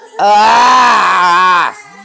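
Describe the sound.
A loud, shrill shrieking cry rings out in a house, one sustained wailing note lasting about one and a half seconds before cutting off abruptly.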